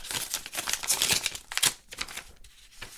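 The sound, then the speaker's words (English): Paper tears and crinkles as a letter envelope sent from prison is opened, with a run of rough, irregular rips and rustles that are loudest early and then thin out into softer crackles. “I don't get a lot of letters from the inside, and so I'm gonna go ahead and open this up.”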